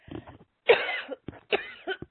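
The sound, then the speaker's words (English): A person coughs a few times in a row. The coughs are harsh, breathy bursts with short pauses between them: one long, loud cough near the start, then several shorter ones, and no talking. “Let me cough for just a second.”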